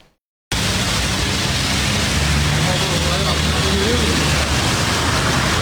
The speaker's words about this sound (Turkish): İSKİ'nin ana su boru hattı patladı, yollar göle döndü. Birden şu giderlerin olduğu yerden su fışkırdı yukarı doğru.